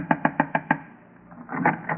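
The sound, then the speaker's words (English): Knocking on a door: five quick, evenly spaced raps, crisp and moderately loud, followed by a pause. “I'll knock again.”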